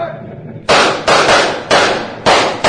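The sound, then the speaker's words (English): Gunshots are fired at a fleeing horse-drawn wagon: five loud, sharp bangs at uneven intervals, each one cracking and then decaying briefly before the next. “You other men, fire at that wagon.”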